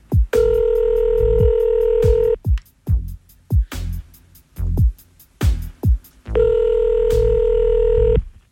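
Telephone ringback tone as a call is placed to a random person: two long, steady buzzing tones of about two seconds each, separated by a run of many short, sharp clicking bursts.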